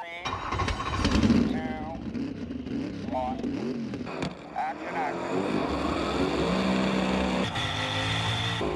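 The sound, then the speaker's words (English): A rally car's engine revs hard as it drifts up a two-lane mountain road without guardrails, weaving between snowplows. The loud engine note rises and falls quickly and repeatedly throughout. “That's the sound of Ken Block as he slaloms up a two-lane mountain road without guardrails, drifting between snowplows, their blades spinning in episode one of the Gymkhana Files”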